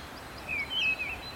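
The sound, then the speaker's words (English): Mistle thrush song from a hillside field with oak trees: a few short, high whistled phrases separated by brief pauses, faint over a soft steady background hush. “And then there's a missel thrush, which I think has one of the saddest songs. Just little phrases.”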